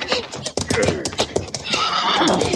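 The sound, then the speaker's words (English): A Cheyenne warrior's pony neighing loudly in a 1950s Western drama, along with clip-clop hoofbeats, while voices talk around it. “Does this pony run fast? Oh, yes. Faster than prairie.”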